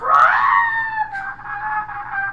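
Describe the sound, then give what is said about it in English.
A voice imitates a drowning cat with one strained, wailing cry. It slides upward at the start, then holds a high, slightly wavering pitch for about two seconds, loud and alone. “A cat drowning sounds like this.”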